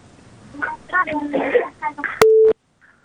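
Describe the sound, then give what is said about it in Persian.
A telephone call connects. A voice is heard first, then a short, loud, steady electronic tone cuts off abruptly into near silence. “نو یک تماس فکر کنم وصل است.”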